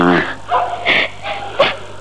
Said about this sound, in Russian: Опять собаки в концовке воют.